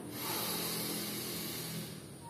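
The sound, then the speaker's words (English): Deep inhalation through the nose during a guided breathing exercise, heard as one steady, breathy hiss lasting about two seconds, alone and fairly faint, easing off slightly at the end. “Inhale all the way from your root.”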